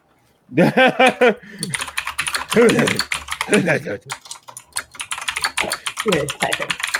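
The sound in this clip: Typing on a computer keyboard, rapid and uneven clicking that runs steadily throughout while people talk over it.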